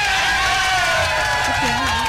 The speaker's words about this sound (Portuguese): Aplausos para o Murilo. Mais uma vez, aplausos.